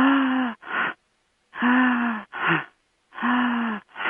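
A person breathes out through an open mouth as a breathing exercise, giving three long voiced sighing breaths. Each is followed by a shorter one, with silence between them.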